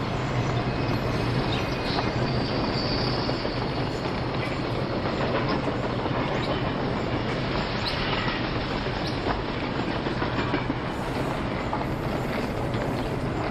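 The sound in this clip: A train at a railway station makes a steady, loud rumble with a rattling, rhythmic clatter of wheels that holds evenly throughout, with no talk.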